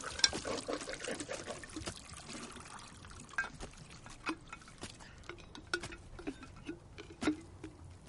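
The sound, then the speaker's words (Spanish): Liquid pours from jars into a clay pot on a porch: a faint, steady trickle and splash with scattered small clinks and taps throughout. “Jane vacía los frascos en una olla de barro”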